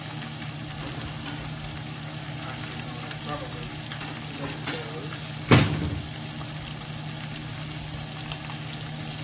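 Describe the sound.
Catfish fries in a pan with a steady, loud crackling sizzle; a sharper clatter and spit breaks through partway before the even frying resumes.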